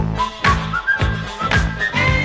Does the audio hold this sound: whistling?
yes